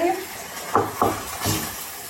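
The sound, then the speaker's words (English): A utensil stirs partially browned mince and cauliflower rice filling for cabbage rolls in a pan, making a few distinct scraping clatters over a faint background hiss. “I've also got double the mince. Stir that”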